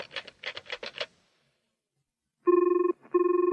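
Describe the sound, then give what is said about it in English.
Telephone ringing on a call being placed: two loud bursts of bright electronic trilling ring, separated by a short pause. “It was ringing. A man answered the phone.”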